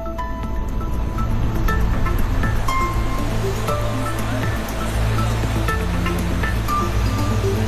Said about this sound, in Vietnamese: Vào năm 2014, một cái gì đó đã xảy ra tại con đập Morello, điều đã không thể tưởng tượng trong nhiều thập kỷ. Các cửa xả lũ đã được mở.